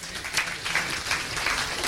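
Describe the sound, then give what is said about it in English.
Short round of audience applause at a car show gathering, a patter of individual claps blending into moderately soft, steady clapping. “So a round of applause for Dave, I reckon.”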